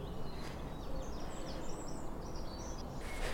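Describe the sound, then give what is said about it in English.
A song thrush singing beside a Brecon Beacons canal at dawn in spring: a string of short, high, varied phrases, fairly faint above a steady low background rumble. “Let's see if we can meet this song thrush up here.”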